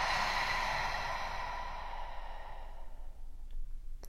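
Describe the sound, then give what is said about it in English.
A long breath rushes out softly and steadily through the nose during a guided breathing exercise, then fades into near silence. “Together, let's take a big breath in through our noses. And let it go.”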